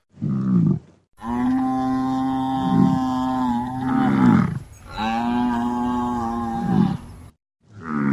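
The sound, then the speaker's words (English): Lowing and bellowing of a herd of buffalo, played as a sound effect: a few long, low, droning calls that overlap and swell, loud and with no talk. “So I've got you a herd of buffalo”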